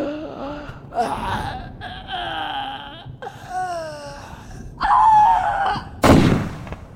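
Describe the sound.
A gunshot effect in a Spanish-language horror radio drama: one sharp, loud blast near the end, after eerie wailing, moaning tones.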